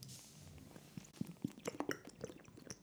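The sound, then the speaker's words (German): A person takes a sip of a drink: a few soft, wet gulping and swallowing clicks, faint and spaced out, with no talk. “Ich trinke nochmal einen Schluck.”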